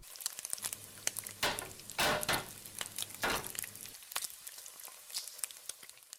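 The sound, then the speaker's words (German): Potatoes frying in a pan until crisp and browned, with a faint, steady crackling sizzle. Dense, fast pops and several brief louder surges of spattering run through it, and no voices are heard. “Und so klingt es im Schillerhof, wenn Bratkartoffeln gebraten werden.”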